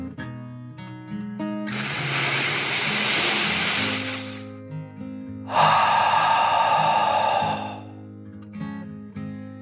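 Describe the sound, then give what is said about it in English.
A deep breath is drawn in and then let out, two long, soft, airy rushes separated by a brief pause and set over gentle, sustained calming music. “took one last deep dragon breath in and out”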